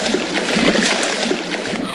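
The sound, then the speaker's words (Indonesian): Splashing water as a fish leaps and drops back into the sea, a dense, continuous wash of splatter and slosh lasting about two seconds, with no clear pauses. “Wah, ikannya lompat. Iya, ikannya kabur. Ide, ikannya masuk lagi ke laut.”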